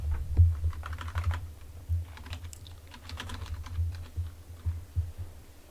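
Typing on a computer keyboard: many quick, irregular key clicks, fairly faint and uneven, coming in bursts with short pauses between them over a low steady hum.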